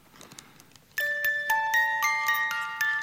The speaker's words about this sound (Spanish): Y sigue sonando la cajita de música